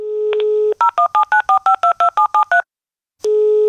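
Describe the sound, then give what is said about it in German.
Telephone dialing tones placing a call: a steady dial tone, then a quick, even run of about a dozen crisp touch-tone beeps, a brief silence, and the steady tone again. “Ein Anruf in Thüringen.”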